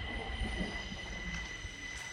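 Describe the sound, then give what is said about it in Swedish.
A subway train sounds in a metro station with a faint, steady low rumble under sustained high-pitched whining tones from the wheels and rails. “Jag går in i tunnelbanan och ser hur det ser ut här inne.”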